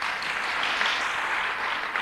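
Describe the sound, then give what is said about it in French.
Crowd applause for audience members celebrating their feast day, during a religious talk. Steady, dense clapping holds at an even level for about two seconds, with no voices over it. “on vous applaudit parce que c'est votre fête”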